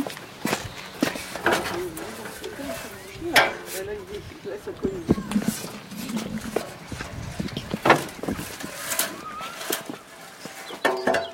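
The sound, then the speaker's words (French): A ladder is set up beneath a bird nest box, heard as a few irregular knocks, clanks and scrapes with shuffling footsteps, while people talk in between. “Ouais, donc là, on installe une échelle sous le nichoir. Faire attention de ne pas taper le nichoir.”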